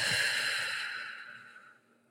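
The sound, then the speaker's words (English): A slow, deep breath during a guided group breathing exercise: one long, airy exhale that starts fairly strong and gradually fades away over about two seconds. “And let's take three deep breaths all together. Slow inhale. Slow exhale.”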